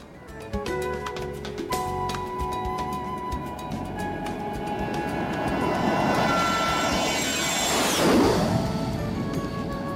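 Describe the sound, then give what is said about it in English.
A jet airplane takes off: the engine roar swells steadily over ten seconds under a thin high whine, peaking near the end before easing slightly. “Yeah, we're going to board the jet, head on over to one of this world's happiest places. You ready for that ride? Here we go.”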